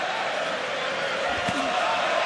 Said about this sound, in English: And the crowd goes up from the Irish fans.